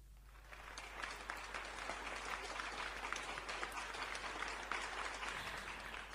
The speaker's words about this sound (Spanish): Las 18 personas te aplauden. No estuvieron ahora así musicalizando con vos, pero... De repente me sentí súper acompañada con esas palmas.